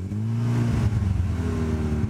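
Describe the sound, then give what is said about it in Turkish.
Powerful car engine running with a deep, throbbing low rumble, the revs lifting and wavering slightly throughout, loud and steady with no talk. “Motor gerçekten güçlü.”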